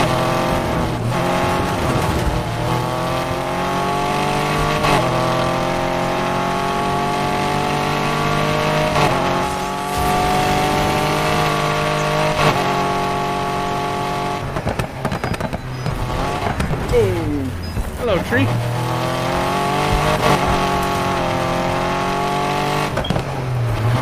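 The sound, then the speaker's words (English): Engine roar of cars in a racing video game runs loud and unbroken. The pitch climbs and drops repeatedly as the engine shifts through gears, with one sharp downward sweep near the middle. “I'm in a race. There's a human in the race, so gotta make sure I win.”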